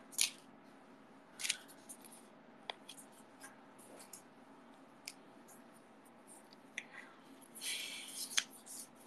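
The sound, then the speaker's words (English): Scissors snip along black outlines in quick, sharp cuts. The crisp snips are faint and come at irregular intervals, with a denser cluster of cutting near the end. “I'm going to cut the black outlines next.”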